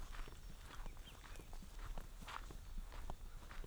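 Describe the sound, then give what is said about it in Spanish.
Horses walking in the mountains give many faint, irregular hoof steps, soft knocks scattered through a quiet outdoor hush. “Ahí puedo agarrar el sonido de caballo.”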